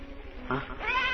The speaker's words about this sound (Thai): เสียงแค่ที่ไหนนั่นไงชายชราไล่ต้อนฝูงแพะเข้ามานอนในร่มไม้